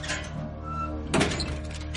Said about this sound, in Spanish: La deja en el botiquín. Lo cierra.